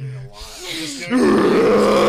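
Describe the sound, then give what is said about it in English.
A man imitates Tim Allen's signature grunting groan: a quieter voiced sound first, then a loud, rough, sustained growl that fills the last second. “That's where he's got his signature groan from.”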